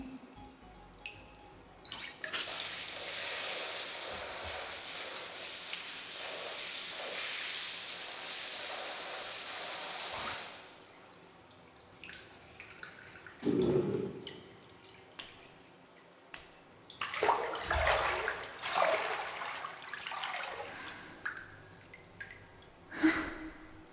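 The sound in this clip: Hot bath water: a steady rushing wash of water lasting several seconds, then scattered splashes and drips at irregular intervals, all fairly quiet with no talking.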